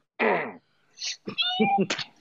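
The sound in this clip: A pet cat meows a few times with no one speaking: a loud opening meow, a brief higher chirp, then a longer, wavering meow that breaks into short, strained pieces.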